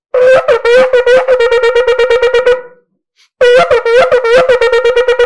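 Shofar blast with the broken shevarim notes running straight into the rapid staccato teruah, a loud, bright, brassy horn tone pulsing in quick regular beats, then a brief pause before another run of fast pulsed notes.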